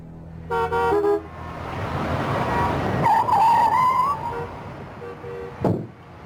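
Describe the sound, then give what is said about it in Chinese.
A car drives up to a transport company's office building under a steady road rumble. Its horn gives short toots near the start and again near the end, and a whining tone rises through the middle. “他自己刚刚开车回到挂着运输公司牌子的工作楼前”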